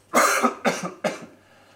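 A person gives three harsh, breathy coughs in quick succession, each burst loud at onset and trailing off, the last slightly shorter. There is no talk.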